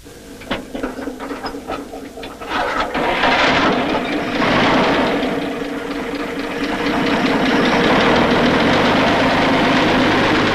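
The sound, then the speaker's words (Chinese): A car engine starts up, with rapid ticking and clattering at first. After about three seconds it builds into a loud, steady, rumbling run that continues to the end. “车发动了”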